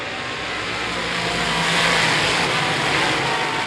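Race cars roar off turn four as the green flag drops to start a race at a raceway, a loud, steady wall of engine noise that swells slightly midway and holds without letup, with no talk.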